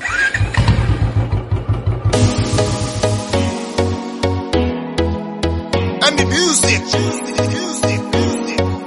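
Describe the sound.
Engine of a Royal Enfield Bullet motorcycle starting and settling into a steady, low, regular thump, loud and mixed with music.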